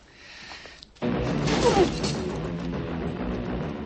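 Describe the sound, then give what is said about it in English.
A person thrown back onto a bed in a basement: a sudden soft, heavy thump breaks a quiet stretch, then a loud, steady rustling noise carries on to the end. “In the basement, Sean is thrown back onto the bed.”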